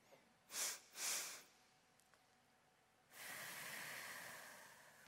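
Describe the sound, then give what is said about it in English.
Breathing exercise: two quick, sharp sniffs in through the nose, a pause, then one long, soft exhale through the mouth, all fairly faint. “It is two quick breaths in the nose and one long exhale through the mouth. We're going to do that two times together.”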